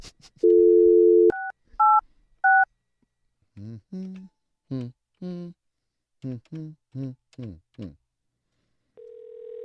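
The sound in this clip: A telephone dials an office number: a steady tone, then three short keypad beeps, a run of about a dozen short tonal bursts, and a steady tone that sets in at the end.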